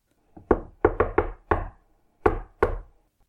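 Knocking on a door: a quick run of five sharp, loud raps, a short pause, then two more, with a faint tap just before the first.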